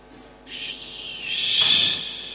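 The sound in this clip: A bird calls outdoors with a raspy, hissing, screech-like cry that lasts about two seconds and grows louder toward its end over a faint background.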